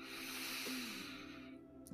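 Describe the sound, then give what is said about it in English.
A deep breath drawn in slowly, heard as a long, airy hiss that stays steady for over a second and then fades out. “Spread your arms open wide. And take a deep breath.”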